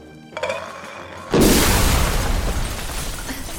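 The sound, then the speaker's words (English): A grenade explosion erupts as one sudden, loud blast partway through, followed by a sustained roaring rumble of debris and noise that slowly fades but stays loud to the end. “I'm sorry. Must have mistaken my grenade for it. I do hate it when that happens.”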